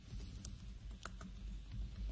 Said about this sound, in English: Not a great typer, as you can tell.